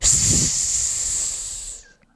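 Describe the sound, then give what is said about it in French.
A voice imitates a rattlesnake's hiss: one loud, sustained, sharp hiss lasting nearly two seconds, holding steady before cutting off abruptly. “C'est le son du serpent. Alors, rappelez-vous un serpent à sonnette qui se dresse tout droit et qui fait”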